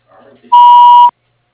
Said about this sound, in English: wait for the tone to leave a message.